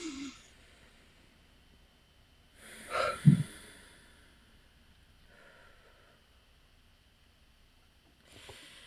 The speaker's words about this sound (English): please just slowly release your hands and then take a big breath into your belly